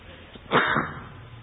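A single sneeze bursts out of quiet background hiss as a short, forceful blast that fades within about half a second.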